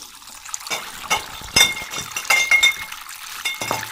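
Glass wine bottles clink during bottling in a cellar: several bright, ringing knocks of glass on glass in an irregular rhythm, with softer liquid and handling sounds in between.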